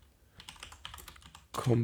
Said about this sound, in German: Wie tippe ich denn?